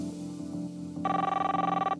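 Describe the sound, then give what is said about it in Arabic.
A telephone rings for an incoming call to a call-in program: a bright, warbling electronic trill starts midway over a steady low tonal bed, and no voices are heard. “طيب معنا اتصال.”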